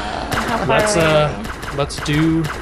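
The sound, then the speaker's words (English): Blasters fire at a ship in a few sharp, crackling bursts, scattered among people talking. “they're starting to fire at the ship, but their blasters aren't going to do enough damage.”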